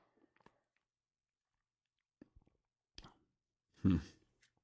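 Apple, pineapple and passion fruit puree is squeezed from a screw-cap pouch straight into the mouth. A few faint clicks and small wet mouth sounds lead to a louder, brief squelching slurp near the end.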